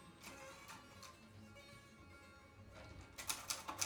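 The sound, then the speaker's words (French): Typewriter keys being struck, faint and sparse at first, then a quick burst of several louder, sharp clacks near the end. “Je tape à la machine.”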